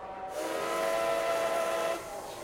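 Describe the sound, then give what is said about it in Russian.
Ambience at Barcelona's Estació de França, a 1929 modernist terminus of monumental metalwork: a sustained hissing, whistle-like tone swells over steady station noise and fades near the end. “Добро пожаловать на французский вокзал Барселоны. Открытый в 1929 году, представляющий собой вокзальный терминал в виде монументальной металлоконструкции в стиле модерн.”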